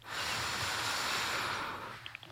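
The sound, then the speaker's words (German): A slow, deep breath drawn in during a relaxation exercise, heard as a soft, broad hiss that holds steady for about two seconds and then trails off into a few faint small sounds. “Und noch ein drittes Mal einatmen.”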